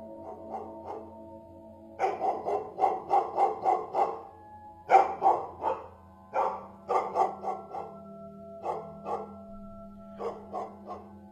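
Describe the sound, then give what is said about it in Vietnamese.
A village dog barking at night, breaking into repeated bursts of several sharp barks each, with brief pauses between the bursts, fairly loud and heard alone. “Bỗng nhiên con chó nhà ai ở trong xóm, nó sủa nhấm nha nhấm nhặng. Cái tiếng chó sủa nghe giữa đêm cứ ngắt từng hồi, rát ruột.”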